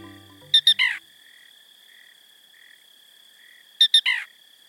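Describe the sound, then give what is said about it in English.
A black rail calling in a Louisiana marsh at night: two quick, sharp, high notes and then a lower, burry note. The phrase is given twice, about three seconds apart, over a thin, constant high-pitched drone. “As the February moon rises over a Louisiana marsh, a peculiar sound breaks the nocturnal silence. It's the call of a black rail, a bird whose voice seems pulled straight from a cartoon soundtrack.”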